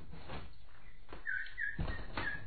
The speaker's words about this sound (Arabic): فلما فتحت الباب قابلها البلبل بأنغام حزينة كأنما يبثها شجونة